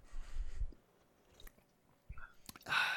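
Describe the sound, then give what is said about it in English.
Soft mouth sounds of someone tasting watermelon-flavored Red Bull energy drink, a few quiet sips and swallows, faint and sparse. “Taking a taste, and that's watermelon-flavored Red Bull.”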